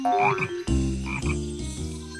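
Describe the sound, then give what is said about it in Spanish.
An injured frog croaks in a few low, buzzing calls with a rough, throaty tone, loud and alone. “Filemón estaba en sus reflexiones camaleónicas cuando vio que una rana malherida se acercaba por el sendero.”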